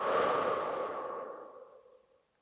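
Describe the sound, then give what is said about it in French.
A long exhale blown out during a guided sophrology relaxation exercise for stress, a single breathy rush that starts loud and slowly fades to silence over about two seconds. “On y va, on inspire et on souffle.”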